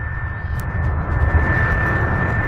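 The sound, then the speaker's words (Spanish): An airplane engine in flight: a loud, steady droning rumble with a thin, constant high whine running through it. “Continúe maniobrando el avión. Hasta ahora lo ha hecho muy bien.”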